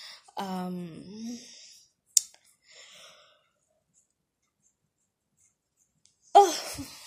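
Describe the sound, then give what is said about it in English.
A long voiced yawn opens with a drawn-out tone that slides downward in pitch. A brief click and a soft breath follow, then a long silence, then a short breathy sound near the end. “I'm yawning.”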